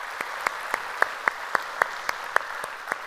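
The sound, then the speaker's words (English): A church audience applauds during a service, producing a steady wash of clapping with sharper claps landing in an even, regular rhythm. “So if you would, put your hands together and welcome them into our service here today.”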